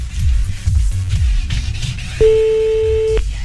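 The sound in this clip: A telephone ringback tone sounds while a call is placed to someone in France: one steady, fairly loud beep lasting about a second, following a stretch of noisy rustling.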